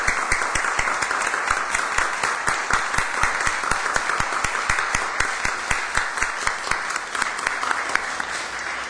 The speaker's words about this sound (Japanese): 私たち大きな拍手を持って感謝を表していきたいと思います。